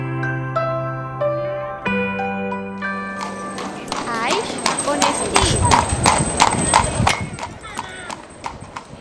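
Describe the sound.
Horse hooves clip-clopping, as in an encamisada horse parade: after a short musical passage, many sharp hoof beats follow in a quick, uneven rhythm, getting louder, with voices present.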